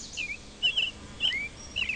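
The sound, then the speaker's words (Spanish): Small birds chirp in short, high bursts: four brief tweets spaced evenly apart, fairly faint over a low background hiss, with no talking. “Por lo menos pajaritos vamos a escuchar.”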